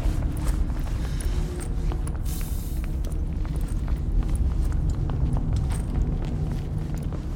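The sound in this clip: Footsteps of people walking through a vast, open space in an audio drama, many steady steps over a constant low rumble.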